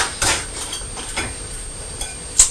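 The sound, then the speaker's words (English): Clean pots and dishes being put away in a cupboard produce a few light clinks and knocks against a steady soft hiss, with one sharper clatter near the end. “Can you see all these dishes? No. Pots, clean pots. They're all drying and putting away in the cupboard.”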